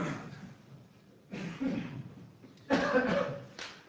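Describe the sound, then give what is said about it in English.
A few coughs and throat clearings from people in a meeting audience, short rough bursts separated by quiet gaps, some coming close together. “Sounds like a tuberculosis ward. Allergies, I think, are getting everybody.”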